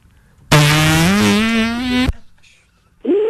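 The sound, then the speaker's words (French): A long, loud, buzzing fart lasts about one and a half seconds, with a strongly tonal quality and a pitch that rises slightly. After a short pause a second burst begins. “Bon, je te fais un petit pet là.”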